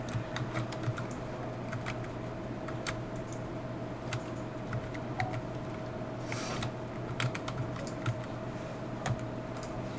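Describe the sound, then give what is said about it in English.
A password being typed on a computer keyboard: many crisp, irregular key clicks in quick bursts over a steady low electrical hum, with no voices. “And then it asks for my password, and this is where I type in the new password that they sent you.”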